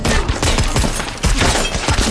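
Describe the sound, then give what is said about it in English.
Rapid gunfire from a masked gunman as police enter a cellar: loud, dense bursts of shots rattle almost without pause, with a brief dip in the middle before the firing surges again. “As the cops step into the cellar, the skulled masked gunman opens fire, taking them out swiftly.”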